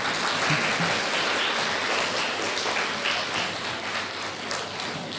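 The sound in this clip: Schoolchildren clapping at their school, a dense, steady wash of applause that holds at an even loudness for the whole stretch with no talking over it.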